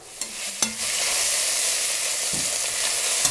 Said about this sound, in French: On va finir avec la viande dorée. On va ajouter oignon et on va attendre aussi que ça sera un petit peu plus doré.